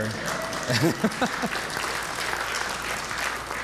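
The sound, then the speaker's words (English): Audience applause for a speaker's family at a talk, a soft, even patter of clapping after a voice speaks briefly at the start. “They've given me over this last year, and you can clap if you want.”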